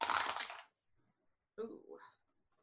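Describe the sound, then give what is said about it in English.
Two dice rattle and tumble during a tabletop game roll, a dense clatter lasting well under a second, followed after a pause by a short vocal exclamation. “We roll two dice in this game, right?”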